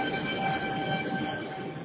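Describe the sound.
Steady rumble of a metro train in motion with faint whining tones running through it. The sound is muffled and narrow-band, holding an even, continuous level for under two seconds.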